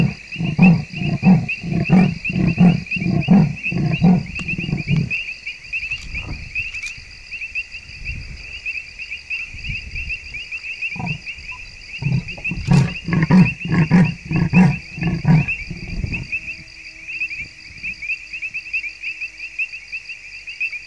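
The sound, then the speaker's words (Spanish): Leopard roaring in the African night, head lowered toward the ground: two bouts of deep, rasping sawing grunts in a steady rhythm, separated by a quieter gap, over a constant high-pitched drone. “Los leopardos rugen de cara al suelo y así utilizan la propia tierra como caja de resonancia.”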